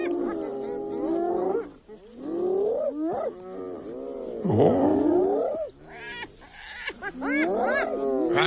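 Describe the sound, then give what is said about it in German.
Original recording of a spotted hyena calling: a run of loud, whooping, giggling cries that swoop up and down in pitch, coming in bursts separated by brief pauses. “Ja, wenn Sie mich fragen, klingt fast so ein bisschen wie ein Lachsack oder sowas, aber ist tatsächlich die Originalaufnahme einer Tüpfelhyäne.”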